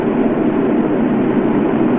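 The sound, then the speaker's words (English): Roar of Space Shuttle Discovery's three liquid-fuel main engines during launch toward orbit: a loud, steady, low rumbling roar that holds without a break. “Discovery rolling on to the proper alignment for its 8.5-minute ride to orbit. 4.5 million pounds of hardware and humans taking aim on the international outpost.”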